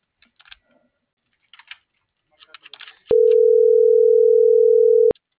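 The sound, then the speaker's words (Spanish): Telephone ringing tone while a number is redialed: a few soft, scattered key clicks, then one loud steady tone lasting about two seconds. “Estoy marcando otra vez a ver qué chungo.”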